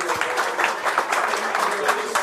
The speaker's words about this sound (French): On peut vous applaudir.